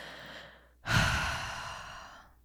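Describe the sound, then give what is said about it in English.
A single deep breath taken alone, starting with a sudden, loud, breathy rush that then slowly fades away over a little more than a second. “I need to just like take a deep breath.”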